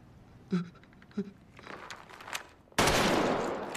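Gunshots in a tense film scene where a player shoots himself in the head and a boss fires at a former hostage guard: two sharp, separate bangs, then a loud, sustained burst of harsh noise.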